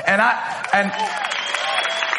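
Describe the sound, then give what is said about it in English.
Audience clapping during a talk about marriage: a voice speaks at first, then dense, steady applause fills the rest and continues at an even level. “And while somebody's clapping for that, somebody else is like, ain't nothing.”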